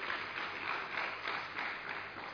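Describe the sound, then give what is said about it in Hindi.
An audience claps in sustained, steady applause. The sound is faint and continuous throughout, with no single claps standing out. “बहुत अच्छा, जोरदार ताली हो अपने लिए।”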